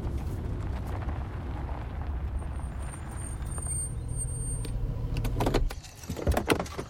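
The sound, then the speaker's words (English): A 4x4 with a luggage-laden roof rack rolls along a forest road, a steady low engine rumble that slows and comes to a stop near the end, followed by a few short clicks and rattles. “Anna drives a 4x4 with a roof rack laden with luggage along a forest road. Ethan sits next to her, dozing. Anna slows up and stops.”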